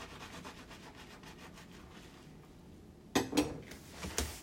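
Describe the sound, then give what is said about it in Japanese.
A spoon is washed by hand with faint, soft rubbing and scrubbing, then a few brief metallic clinks near the end. “スプーン洗いながら”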